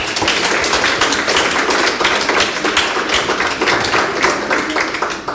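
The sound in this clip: Audience applause at a prize presentation ceremony: dense, loud clapping from many hands, sustained evenly across the whole stretch with no voices over it.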